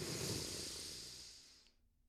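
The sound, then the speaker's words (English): A deep breath is drawn and released, heard alone as a soft, breathy rush of air that stays steady and then fades away to silence. “one more deep breath, ladies and gentlemen. Breathe it all in, and we're going to let it go.”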